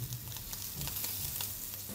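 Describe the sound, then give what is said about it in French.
A thin lab-grown steak from Aleph Farms sizzles in a pan while a chef cooks it, giving off a steady, faint hiss scattered with small crackles and pops. “Voici le steak très fin que la start-up Aleph Farms a réussi à développer. Ce chef, spécialisé dans la cuisson de la viande, contribue à améliorer le prototype.”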